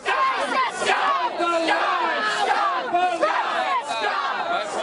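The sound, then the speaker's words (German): Demonstrators protesting against Islam in Bendigo crowd together and shout, a loud, dense wall of yelling and chanting voices that carries on without a break. “Da, wo sonst Familien großkarierte Picknickdecken ausbreiten und sich Kinder Rugbybälle zuwerfen, drängen sich Demonstranten. Mit Megafonen, Spruchbändern und mit Wut im Bauch.”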